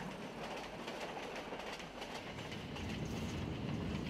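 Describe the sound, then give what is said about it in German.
A train runs steadily over slightly bumpy rail tracks in a region with pagodas, hauled by a locomotive. It makes a continuous, fairly quiet rumble with clattering wheel-on-rail rattle throughout, and no voices are heard. “Unser Lokführer jedenfalls bleibt entspannt auf den etwas holprigen Gleisen.”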